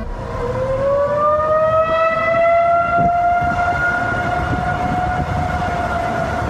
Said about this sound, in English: That sound you're listening to, it sounded like an air raid. I mean, I knew there wasn't severe weather. That's because it was not an air raid or severe weather. At 11:42 p.m. on Friday night, every single emergency siren in Dallas,